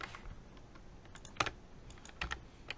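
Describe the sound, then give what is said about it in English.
Someone types on a computer keyboard: quiet, irregular clicking keystrokes, with a few sharper, louder key presses standing out from the soft run of taps. “And then, of course, you can type your answers.”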